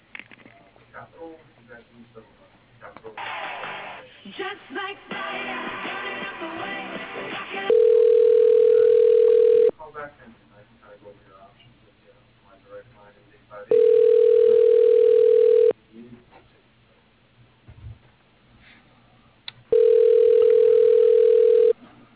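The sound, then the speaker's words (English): Telephone line tones while a call is transferred to voicemail: three long, steady, mid-pitched tones, each lasting about two seconds, separated by longer stretches of softer murmuring sound and noise. “Yeah, I can send you to his voicemail.”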